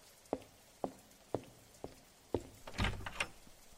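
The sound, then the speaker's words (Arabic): Knocking on a door during rain: five evenly spaced, sharp raps followed by a louder, denser cluster of knocks, all fairly faint over a soft, steady background hiss. “من اللي بيدق الباب بهذا الوقت وبين المطر هذا؟”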